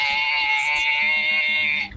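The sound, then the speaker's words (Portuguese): A voice imitates a young female goat in heat, holding one long, nasal, wavering bleat for nearly two seconds before it cuts off into a brief, lower calf-like call at the end. “Tá aí, imitou um bezerro também no final. Meu Deus do céu. Um abraço, né, pra você, meu a querido. Cabrita no cio.”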